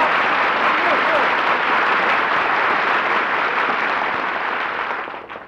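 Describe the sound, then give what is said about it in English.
Sustained audience applause greets a performer's entrance as a dense, steady clapping roar that holds for about five seconds and then fades out at the end. “Gee, was all that applause for me?”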